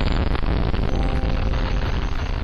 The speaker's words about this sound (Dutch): Die zaterdag liggen veel mensen nog te slapen als de buurt ineens wordt opgeschrikt door een enorme explosie.